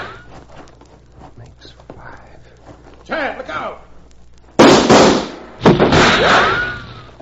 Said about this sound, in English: And that makes six. All right, Cleaver, your gun's empty, I reckon